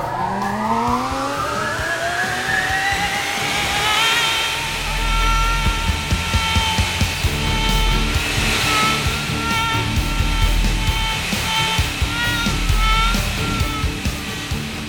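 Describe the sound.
An astronaut training centrifuge spins up with a mechanical whine that climbs steeply in pitch over the first few seconds. It then holds a loud, steady, tonal drone over a heavy low rumble, with no talk.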